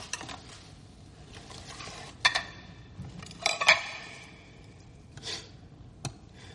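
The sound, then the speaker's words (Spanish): A man fiddles with plates on a table, giving light clinks and clicks of crockery and cutlery. A few scattered taps rise briefly above a quiet hiss with gaps between them. “Él juguetea con los platos.”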